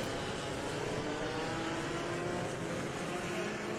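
A pack of race cars passes on the opening parade lap of a Gold Classic race at the Velocitta circuit, a dense, continuous engine roar that stays loud and even throughout.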